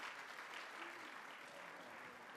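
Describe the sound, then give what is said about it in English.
An audience applauds with dense, steady clapping throughout, fairly faint and even in level. “Let's give a round of applause for Steve here.”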